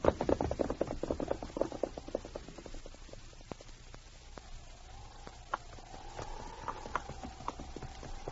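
Hooves of a ridden horse clip-clop along a branch trail: many quick, sharp hoofbeats that ring loudest at first, then settle into a fainter, steady beat.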